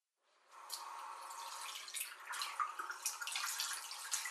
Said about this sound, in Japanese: 隅々までしっかり手を洗って、ゴシゴシゴシ。